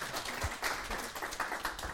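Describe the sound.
Hand clapping from a small group at a discussion session, a quiet, scattered patter of claps lasting about two seconds.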